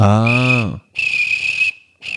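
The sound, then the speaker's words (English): A person imitates a football coach's whistle with the mouth, producing shrill, high, steady blasts: two long ones and the start of a third. A falling voiced sound overlaps the first blast. “You used to be able to do a really loud whistle? No, like a actual coach's whistle.”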